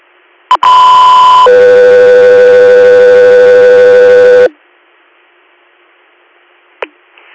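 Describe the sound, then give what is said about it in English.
Emergency dispatch paging tones over a radio channel: a short click, then a loud steady tone for about a second, followed by a lower sustained tone for roughly three seconds. It cuts off abruptly, and a faint click comes later. “stand by for tones”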